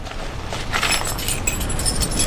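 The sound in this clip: Keys jangle in a continuous, light metallic rattle with brief, brighter clinks, fairly loud throughout.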